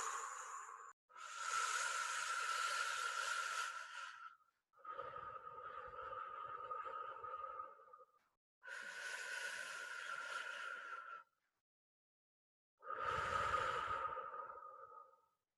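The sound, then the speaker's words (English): Slow breaths during a guided breathing exercise: four long, airy, hissing breaths, each lasting a few seconds, separated by short silent pauses, with no talking. “And breathing, you start with an exhale. So you go,”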